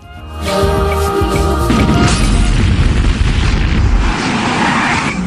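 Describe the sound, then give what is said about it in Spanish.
A loud explosion at a house: a heavy, rumbling blast that swells within half a second and then holds as a dense, roaring wall of noise for about five seconds, with no voices. “Parece que hubo una explosión en la casa de los Simpson.”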